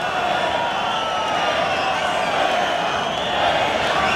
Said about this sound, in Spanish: El público está muy enfadado y protestando las condiciones de la lidia de este toro.